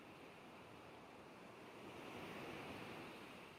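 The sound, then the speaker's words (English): Crashing ocean waves make a steady, faint wash of surf, swelling slightly louder partway through, with no voices. “It's darkness until you hear crashing waves.”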